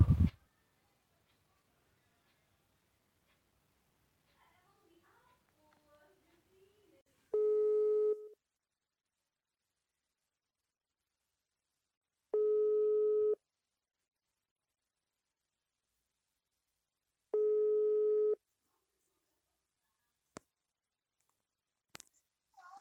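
Busy tone after a phone call cuts off: three evenly spaced, steady beeps separated by silent gaps, followed by a couple of faint clicks near the end.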